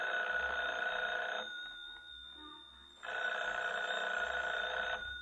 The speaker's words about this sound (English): Should I answer it? Answer it. Hold the receiver up, that's right.